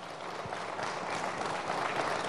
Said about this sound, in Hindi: तालियों के साथ स्वागत कीजिए, उत्तर प्रदेश कांग्रेस अध्यक्ष अजय राय जी जुड़ रहे हैं।